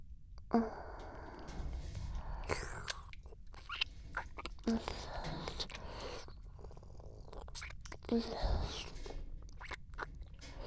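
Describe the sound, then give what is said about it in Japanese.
A person drinking, with wet swallowing gulps repeating a few times amid soft mouth noises and breathy sounds, quiet and continuous. “それじゃあ飲むとこちゃんと聞かせてあげるね。”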